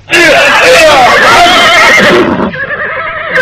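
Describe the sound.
Horse neighing as riders mount, a loud, quavering whinny lasting about two seconds before it drops away into a quieter tail.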